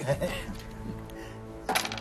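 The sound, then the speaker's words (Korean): Dice thrown during a quiz board game clatter in a few hard, rattling clicks over a noisy background, with a brighter burst of tumbling near the end. “자, 다음 문제를 계속 풀려면 주사위를 던져 주세요. 이번엔 제가.”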